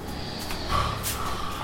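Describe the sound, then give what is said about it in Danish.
A man snoring loudly, like a bear, in the living room of a rented apartment: short, rough snorting breaths rising from a constant noisy background. “Men nu ligger han i stuen i den lejlighed, vi har lejet og snorker som en bjørn.”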